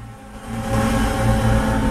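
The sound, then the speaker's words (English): Snowmobiles race across snow with a steady, buzzing motor drone that swells in loudness partway through and holds strong to the end. “Two motor sleds racing across the snow.”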